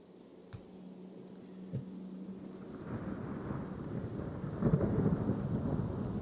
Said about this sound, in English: rain begin to fall.